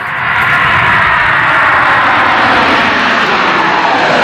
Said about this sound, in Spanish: Y ahora vamos a subirnos a un avión.